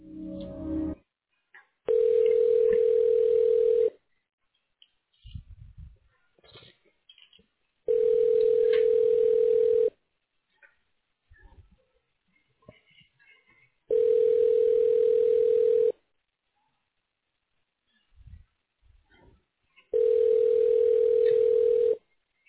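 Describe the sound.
Telephone ringback heard while a call is transferred to a hospital radiology line: four steady, loud two-second tones separated by longer silent gaps, with faint scattered noises in between.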